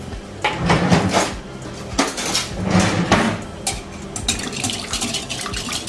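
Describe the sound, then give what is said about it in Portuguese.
Whisking egg yolks with half a cup of milk in a bowl, a run of quick, uneven metallic clinks and scrapes in bursts, moderately loud, with no talking. “Junto com essas gemas aqui, eu vou colocar meia xícara de leite, tá? Meia xícara de leite. Já vou misturar.”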